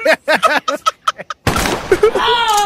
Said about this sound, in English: they added a gunshot. Sound like a fucking revolver